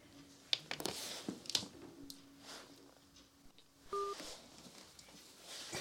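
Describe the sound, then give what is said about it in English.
Telephone line sounds as a caller hangs up and calls back: faint clicks, a low steady tone, then a brief beep, all quiet and with no voices. “I think they just hung up. All right. They're calling back.”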